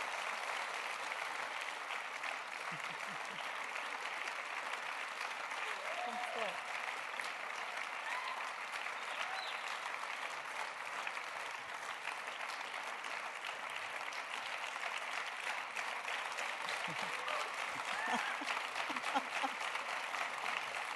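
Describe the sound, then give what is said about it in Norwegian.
Audience applause goes on for about twenty seconds as a dense, even patter of clapping, with a few voices faintly audible underneath. “Kanskje, ja, vi gir en applaus.”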